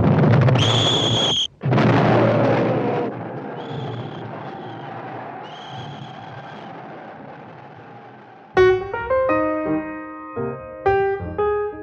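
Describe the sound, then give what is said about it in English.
Artillery barrage from 75 field guns firing on friendly trench positions in a war scene: two heavy booming blasts in quick succession, then a long rumbling decay, followed by loud orchestral music. “Order the 75s to commence firing on our own positions.”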